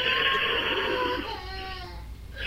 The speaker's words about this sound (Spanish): la que lloró fue su prima, que se raspó la rodilla contra un escalón al subir al carruaje.